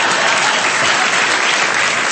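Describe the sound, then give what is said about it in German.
Dense, steady audience applause fills the whole clip, loud and even throughout, with no pauses and no single voice standing out. “vielleicht nochmal einen Applaus für Bad Godesberg”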